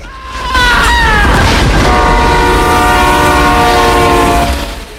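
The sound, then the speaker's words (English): An oncoming train sounds its horn in long, loud, sustained blasts over heavy rumbling and rail clatter, fading slightly at the end. “pulls himself back up out of the way of an oncoming train”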